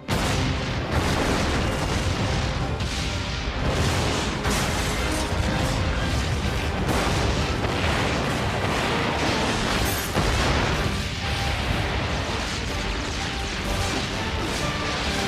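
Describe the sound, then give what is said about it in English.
Explosions tear through Gotham City in a dense, unbroken roar of crashing booms and rumbling blasts, loud and sustained throughout with no quiet gaps. “Gotham City exploding.”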